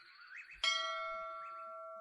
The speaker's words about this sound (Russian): С сокровенной вышины храма слетел колокольный звон, призывая к покаянию.